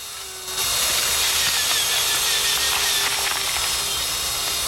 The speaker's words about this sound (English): He breaks off a piece of the skull that has been lacerated, then uses a circular saw to make an incision across the front of the cranium.